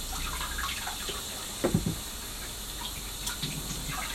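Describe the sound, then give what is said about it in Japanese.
Tap water runs as sweet potatoes are scrubbed clean, a steady faint gush with a few brief splashing, handling bursts in the middle and near the end. “せっかく美味しいさつまいも買ってもね痛ましちゃったら意味がありませんのでさつまいもをよく洗ってで”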